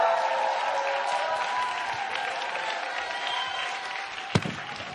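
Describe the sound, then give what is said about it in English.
Church audience applauding to welcome a pastor, with steady, dense clapping that holds at an even level throughout and one sharp knock near the end. “So why don't we put our hands together and welcome up Pastor Sunhee Robinson.”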